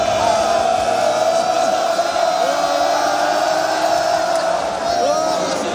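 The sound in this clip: A stadium crowd at a Wales versus Belgium football match roars and cheers as a rat runs onto the pitch, a loud, continuous wall of voices with scattered whoops.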